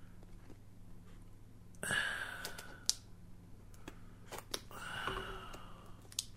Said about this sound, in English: this is not letting me cut it very well. There we go. Got it. Okay, I got one of them cut. So now I just need to cut through this other one here.